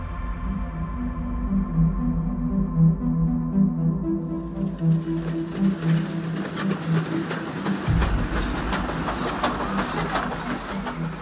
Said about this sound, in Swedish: Pojken Bimrao väntar vid tågstationen på att bli upphämtad av sin pappa.